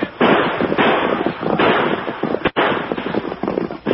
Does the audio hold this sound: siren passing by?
no